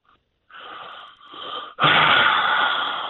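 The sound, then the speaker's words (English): A man draws a deep, wheezy breath before answering during a radio sports interview. The air comes in two audible pulls, then a louder, rushing surge of breath follows. “That's a deep breath before you get his answer.”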